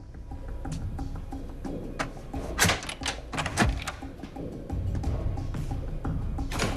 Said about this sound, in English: No one replies, so he sets about picking the lock.